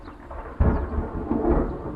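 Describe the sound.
Thunder from a gathering storm with lightning and rain approaching: a continuous low rumble that surges louder twice, with no voices.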